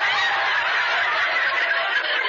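An old egg-laying bird gives a harsh, noisy squawk that runs loud and unbroken for about two seconds.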